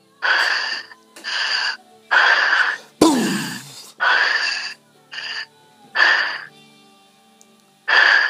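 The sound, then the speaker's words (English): Heavy breathing in and out through the mouth during a faith-healing prayer session: a steady series of loud, breathy huffs separated by short pauses, with no talk over them. “Breathe in and out 5 times heavily with your mouth.”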